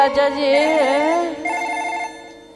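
A telephone rings during a phone call, a loud electronic ringtone of sustained, wavering melodic tones with rich overtones, then a brighter repeating ring phrase that fades toward the end.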